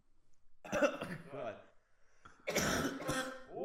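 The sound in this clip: A chesty, rough cough from a person whose throat is strained from shouting: two separate harsh bursts with a short quiet gap between them, the second louder and fuller than the first.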